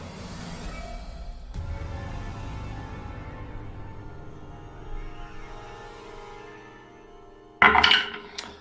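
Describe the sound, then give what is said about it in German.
Dice rolled for a tabletop role-playing game produce a brief, bright rattling clatter near the end, after a long stretch of quiet low background noise. “Ihr dürft bitte beide einmal würfeln Action und Kampf, also einmal der Typ und einmal du. Ich würfel für den Typ.”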